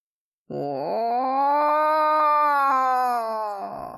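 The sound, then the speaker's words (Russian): A low, chilling howl: one long harmonic cry that climbs briefly at the start, holds steady and full for about three seconds, then wavers and fades out. “Откликнулся чей-то вой, низкий, леденящий душу.”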